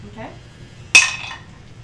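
A single sharp clink of rose quartz dice landing on a table during a tabletop role-playing game, with a brief bright ringing tail that fades quickly.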